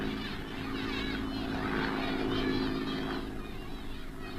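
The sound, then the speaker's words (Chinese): Droning propeller engines of Japanese military airplanes flying away, a steady low hum with a layered tonal buzz that swells slightly midway and then eases. “大家愤怒地瞧着日本人的飞机飞远了。”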